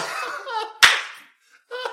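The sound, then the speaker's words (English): A single sharp hand clap, a bright slap-like burst that cuts in between stretches of voices talking. “Don't clap on the podcast.”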